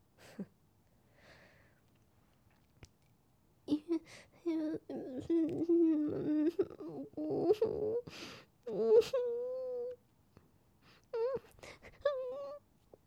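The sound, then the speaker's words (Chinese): Whimpering and sobbing from a female voice playing a turtle turned into a girl, coming in several tearful bursts with sniffles and short pauses between them. “都说了，别哭。我从没听过母乌龟会有情绪的。”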